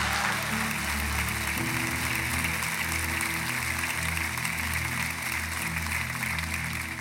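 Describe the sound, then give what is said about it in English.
A church audience applauds to welcome a pastor onto the stage. The clapping is steady and dense, holding at an even level from start to finish with no voices rising above it. “Ladies and gentlemen, Summit Church, would you put your hands together and welcome Pastor Joby Martin.”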